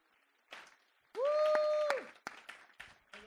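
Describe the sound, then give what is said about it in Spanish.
Applause from a church audience honoring the Lord during a service. It comes as a loud, dense burst lasting under a second with a long held tonal cry over it, then trails into scattered lighter claps. “Vamos a darle un aplauso al Señor.”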